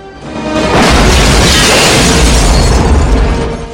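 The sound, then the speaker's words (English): Grenade explosion in an action film scene, a loud blast that swells into a sustained roaring rumble with a crackling, debris-like edge before it fades away. “The hunter spills a grenade as he dies.”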